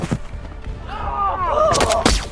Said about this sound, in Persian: دیاکو از زیر ماشین بهشون شلیک میکنه.